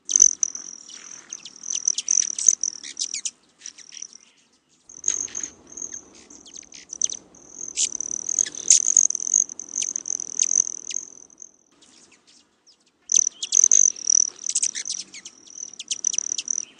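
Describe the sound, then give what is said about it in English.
A male broad-tailed hummingbird's wing whistle comes as a high, shrill, buzzy trill in several bursts separated by short silences, mixed with quick sharp chirps. “One is the sound that's made by the wings of the male broad-tailed hummingbird, and when they flap their wings, they make a whistle. And the other noise that you're hearing is the chirping,”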